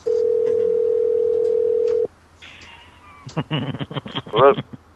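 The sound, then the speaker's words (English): A single long telephone ringback tone from an outgoing call, a steady loud hum lasting about two seconds, then a short quiet gap before a voice answers over the line. “because like we hear the ring. One ringy dingy.”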